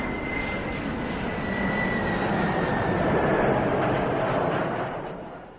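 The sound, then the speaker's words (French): An airplane flying, its engine a steady droning roar with a faint whistling tone. The sound swells gradually toward the middle, then fades away near the end. “Attends, regarde! Un avion!”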